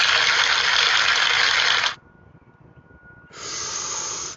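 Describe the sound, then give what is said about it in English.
A long, hissing draw of cannabis smoke, of the Blue Dream strain, is inhaled steadily for about two seconds. After a quiet pause, a second, softer breathy rush follows. “Good on the inhale. Great on the exhale, y'all.”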